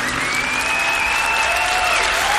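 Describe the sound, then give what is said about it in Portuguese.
Applause for Our Lady in a Catholic setting: dense, steady clapping from a crowd that stays loud and even through the short stretch, with a faint sustained tone running beneath. “salva de palmas a Nossa Senhora! Viva Nossa Senhora!”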